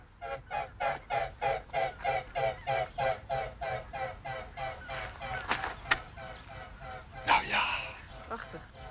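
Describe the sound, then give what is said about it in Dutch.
Geese calling high overhead: a steady, rhythmic run of many loud, nasal honks that later thins into scattered, less regular calls. “Oh, maar ganzen. Ja. Ganzen. Oh ja, daar heel hoog boven.”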